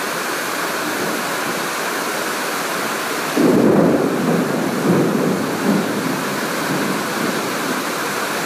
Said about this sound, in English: listen to the falling rain.